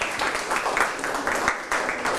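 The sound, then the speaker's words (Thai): Students clapping for themselves during a classroom lesson, a brisk run of fairly loud claps in an uneven rhythm. “ปรบมือให้ตนเองทั้งต้นทางและปลายท”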